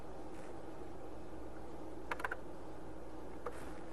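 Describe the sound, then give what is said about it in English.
A few faint, quick keystrokes on a computer keyboard as a Lisp definition is typed in: a short cluster of clicks, then a single later tap over a quiet hiss. “Well, let's take a look at that on the computer and see how that looks. so I'll, I'll just type what I wrote on the board.”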